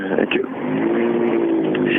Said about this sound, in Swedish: kommer lite mer ettriga maskiner här. Nu har vi R2 här ute.